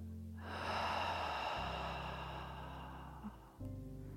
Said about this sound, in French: Inspire par le nez profondément. Retiens le souffle et expire par la bouche.